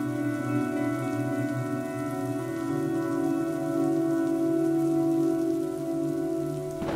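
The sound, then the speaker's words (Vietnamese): Heavy rain pouring down at night, a dense and steady hiss that holds for the whole stretch over a sustained low tonal drone. “Giờ tí đêm ấy, trời đổ mưa rất lớn.”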